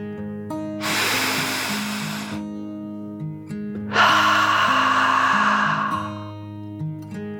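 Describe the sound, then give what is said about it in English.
A deep calming breath is drawn in and let out as two long, airy rushes separated by a short pause, heard over soft music with steady sustained tones. “After a moment, she took another deep dragon breath in and out.”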